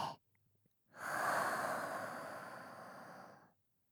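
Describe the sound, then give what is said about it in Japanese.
A slow, airy breath during a guided nose-in, mouth-out breathing exercise: faint soft sounds at first, then one long, loud exhale lasting about two and a half seconds that gradually fades before silence. “鼻から吸って、口から吐いて、”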